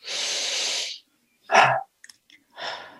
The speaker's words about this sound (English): put your hand on your heart and just take a deep breath.